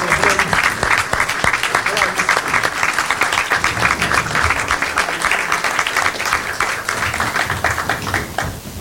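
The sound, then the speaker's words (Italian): Audience applause for a performer at a televised music contest: dense, loud clapping that stays steady and unbroken throughout. “Fate un applauso a Andrea.”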